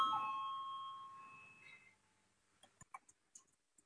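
A bell rings to call a parliamentary vote, its bright tone fading out over about two seconds, followed by several faint, scattered clicks.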